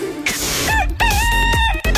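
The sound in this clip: A rooster crows loudly in a few drawn-out, ringing calls that follow one another closely and fill the whole clip.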